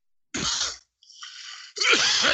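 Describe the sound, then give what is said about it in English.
A person sneezes, unmuted, during an online call: breathy, explosive bursts in quick succession, with the final burst the loudest. “Whoever's sneezing, and what I've just said is nothing to sneeze at, is should be muted.”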